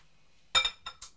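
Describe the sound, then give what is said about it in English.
A glass bowl is turned over onto a cloth, giving three light glassy clinks and knocks, the first loudest and the last two shorter, against near silence. “Let's turn the glass bowl on this cloth and then it won't slip.”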